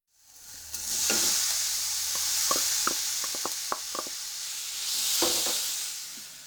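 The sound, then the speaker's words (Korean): Minced meat and chopped ginger sizzle as they are stir-fried, stirred with a wooden spatula; a steady hiss of frying runs throughout, with a dozen or so sharp scraping knocks of the spatula at irregular intervals. “알갱이가 작은 소보로를 만들기 위해 나무 주걱으로 잘 저어가면서 볶습니다.”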